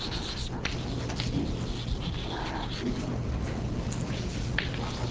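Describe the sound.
Scratchy strokes and light taps of writing on a board during a physics lecture, faint and uneven over a steady background hiss.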